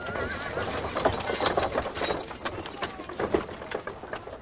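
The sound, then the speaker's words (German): Post horses whinnying while the hooves of a horse-drawn mail coach clop steadily, the neighs rising above a dense, continuous clatter of hoofbeats. “Früher tat sie das mit der Kutsche. Diese wurde von Postpferden gezogen”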